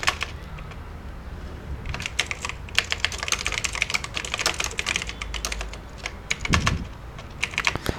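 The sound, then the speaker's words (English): Typing on a computer keyboard: rapid, irregular keystrokes, sparse at first and then dense and continuous, with clicky taps at a moderate level. “So I can just type, put in something like this.”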